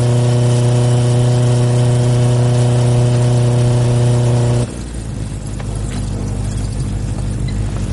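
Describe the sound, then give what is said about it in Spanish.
A motorcycle speeds along a dark road, its engine making a loud, steady humming drone that abruptly gives way partway through to a rougher, lower rumble. “Roque y Daniel van en la moto a toda velocidad y circulando por una carretera oscura”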